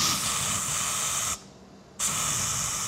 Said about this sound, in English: soaking myself with bug spray